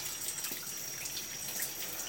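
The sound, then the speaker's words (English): Running water while someone's back is being washed, a faint, steady trickle and splash with small drips and no voices. “Let me wash your back. Yeah. Turn around. Yeah, there you go.”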